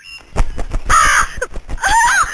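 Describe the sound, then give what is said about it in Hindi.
A crow caws loudly in a few harsh, rasping calls. “ये कौवा यहां क्यों शोर कर रहा है?”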